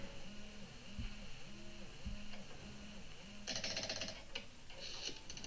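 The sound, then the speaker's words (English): A rotary phone is dialled in a video game, with quick repeating ticks and whirring clicks in an even rhythm. A busier, brighter clatter of clicks follows in the second half. “Oh, she's got to dial 0 every time on a rotary. Good luck getting through.”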